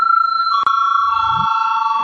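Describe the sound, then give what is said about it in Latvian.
An electric bell sounds in a parliament chamber, rung by the chair before a vote: a loud, steady, continuous high-pitched tone with a brief click near the start, sustained throughout. “Lūdzu zvanu.”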